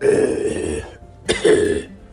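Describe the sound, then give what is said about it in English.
A person voicing a fire-breathing dragon character coughs twice. The two rough, raspy throat bursts are separated by a short pause, and the first runs longer than the second. “Oh, I have a cough sometimes”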